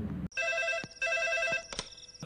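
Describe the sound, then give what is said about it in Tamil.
Telephone ringing with an incoming call: a repeating electronic ringtone of bright, steady tones in short bursts separated by brief gaps, heard alone. “அப்போ பிரேம்கிட்டேருந்து கால் வந்தது”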